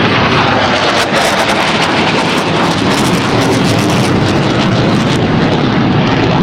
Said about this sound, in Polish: No to się stało i to mam wrażenie, że tuż nad naszymi głowami przeleciały te F-y, cztery F-y.